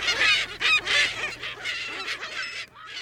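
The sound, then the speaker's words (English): Seagulls calling over a bay off New York City give many harsh, honking cries in quick succession. The calls are fairly loud and uneven in rhythm, with no voices. “auto traffic from the bridges, ferries cutting the waves, and, of course, all the frickin' seagulls.”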